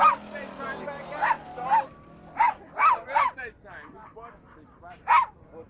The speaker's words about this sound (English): That's my dog.